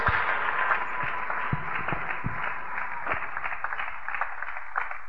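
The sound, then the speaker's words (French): A church audience cheers and applauds the Lord as worshippers return to their seats, making a dense, muffled wash of clapping and crowd noise with scattered sharper claps that runs steadily throughout. “Nous reprenons nos places en acclamant encore une fois le Seigneur.”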